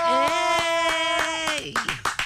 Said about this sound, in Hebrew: תנו מחיאות כפיים לדקלה!